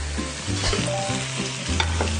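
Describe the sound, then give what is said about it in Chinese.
Ginger and garlic fry in oil with a steady, dense sizzle and crackle, and stirring scrapes run through it. “一边煎，然后让它这种姜和蒜的味道就出来了。”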